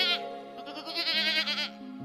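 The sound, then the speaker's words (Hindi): A sick goat bleating in a single drawn-out, quavering cry that lasts about two seconds and wavers in pitch over a steady low tone. “चुप, बीमार पड़ल बकरी, बीमार पड़ल बकरी,”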